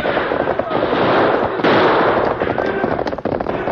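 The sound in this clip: Gunfire in a radio western shootout as outlaws attack a stagecoach: dense, loud, continuous cracking bursts run throughout, with a few sharper reports standing out.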